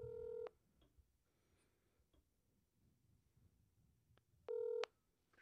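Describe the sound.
Telephone dialing tones as a call is placed: a short touch-tone beep, then quiet with faint scattered clicks, then a second short beep of the same pitch pattern near the end.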